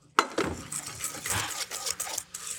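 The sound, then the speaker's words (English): Cornstarch is mixed into egg yolks in a bowl. A sharp knock is followed by a quiet, irregular run of utensil scrapes, light clinks and rubbing taps. “45 grams of cornstarch that I will mix with the yolks,”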